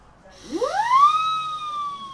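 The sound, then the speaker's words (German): A toy siren whistle blown by mouth, its rotating part making the oscillation, gives one loud wail that sweeps quickly upward in pitch, then holds a steady, bright, sustained tone to the end. “What we have here is a typical sirene. It's basically based on something that turns and makes an oscillation due to the fact that you blow in the air and the air goes quickly through this”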